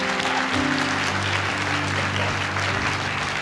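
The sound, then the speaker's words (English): Church audience applause welcoming a pastor to the stage, a continuous wash of many hands clapping at a steady, moderate level from start to finish. “why don't you put your hands together and welcome Pastor Lane Schrantz.”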